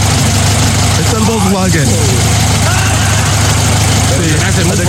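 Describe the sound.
A Volkswagen Beetle engine idles in a steady, low, even rumble that runs through the whole stretch while a man talks over it.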